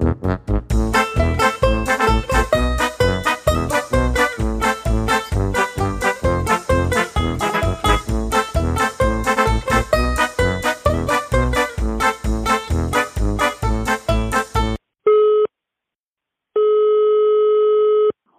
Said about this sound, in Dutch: En wij gaan even bellen met Jelle.